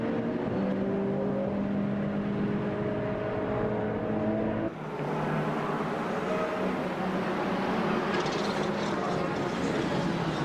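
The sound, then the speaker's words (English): Race cars during a VLN endurance race, with the number one BMW entering the pits, make a continuous engine drone with shifting tonal whines. The sound changes abruptly midway, and a commentator talks over it. “Oh, the number one, Brinker Meissen, BMW into the pits.”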